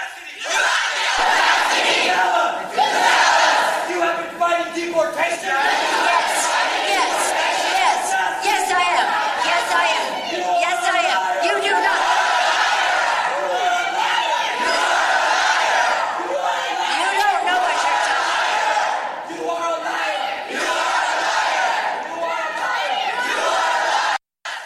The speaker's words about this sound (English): When they heckled Pelosi, right? Did you get the heckling of Pelosi? If you didn't, I'll have you hear it.